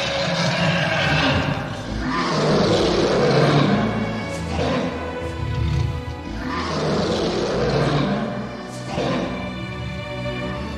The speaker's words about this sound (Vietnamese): Là Long Mạch ngửa mặt lên trời, gầm thét lên một tiếng. Một tiếng thiên địa rung chuyển.